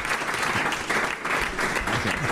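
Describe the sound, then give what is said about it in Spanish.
Audience applause for a restaurant kitchen team at a cooking event: a dense, steady clatter of many hands clapping that stays loud and even for the whole stretch, with no single voice standing out. “Le vamos a dar un aplauso a Rubén porque se lo están currando a todo el equipo de cocina.”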